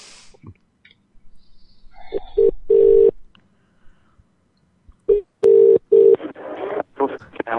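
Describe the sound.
Telephone tones during a call to the 101 number: two groups of steady, mid-pitched beeps separated by a quiet gap with faint clicks, followed by people talking.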